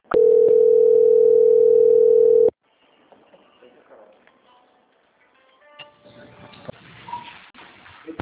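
A continuous, loud, single-pitched telephone tone plays while a Santander bank call is transferred to quality control. It holds steady for about two and a half seconds, then cuts off into quiet line noise with faint scattered sounds.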